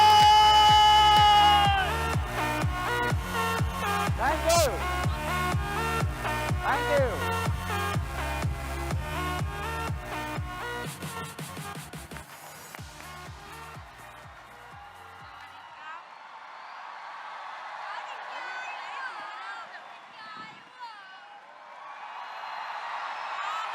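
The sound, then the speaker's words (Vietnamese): A crowd cheering and whooping to welcome a special guest from Thailand onto the stage, rising as loud music fades out, then continuing as a dense, hissing wash of voices and clapping. “Vỗ tay lớn lên các anh chị ơi.”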